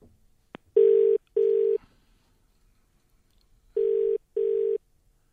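A telephone call is placed: a soft click, then two pairs of loud, steady low buzzing ring tones separated by silence, with no voices.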